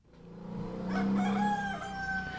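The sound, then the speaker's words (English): A rooster of the rare jet-black Ayam Cemani breed crows once in a village in Java, Indonesia, a loud, drawn-out call lasting about two seconds that rises and then trails off, with no one speaking. “I'm in a small village in Indonesia, and I never thought I would be so excited to meet a farm animal, but I'm about to see the most magnificent breed of chicken on earth. It's known as the Ayam Chamani,”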